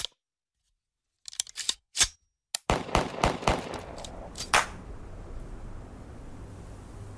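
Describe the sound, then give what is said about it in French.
Carbine shots fired at plaster-covered paintings in an alley of artists' studios in Paris in 1961: sharp cracks, sparse at first, then a quick run of many reports over a steady background hiss. “Niki de Saint-Phal entreprend un improbable tir à la carabine sur des tableaux couverts de plâtre”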